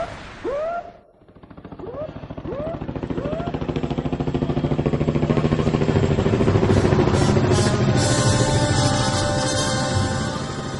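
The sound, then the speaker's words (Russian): Helicopter approaching from the shore, its rotor beating in a rapid, steady chopping pulse that grows steadily louder over several seconds, then holds close and heavy. “Черная точка в небе быстро приближалась со стороны берега, и вскоре уже можно было невооруженным глазом рассмотреть винтокрылую машину. Он знал, что от вертолета не убежишь”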